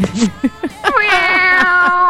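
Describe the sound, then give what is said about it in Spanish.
A human voice imitates a cat meowing, giving about four short, rising-and-falling meow calls in quick succession, followed by a sustained tone. “El maulló y todo en el audio, no puede ser.”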